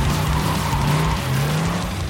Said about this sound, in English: he put the key in ignition and started and peeled off